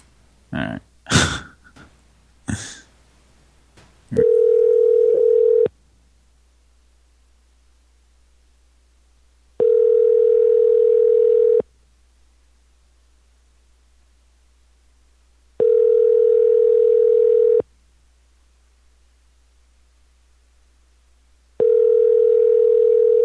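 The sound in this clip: Telephone tone played from a soundboard: four steady, evenly spaced buzzing tone bursts separated by long silences, with the last one cut off. A few clicks and handling noises come before the first burst.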